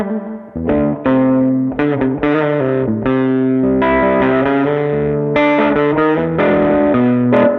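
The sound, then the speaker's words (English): Distorted electric guitar played through an octave fuzz effects pedal, with a thick, buzzy tone and an added octave. A steady run of loud chords and sustained notes plays continuously, with no voices. “So can we hear the octafuzz?”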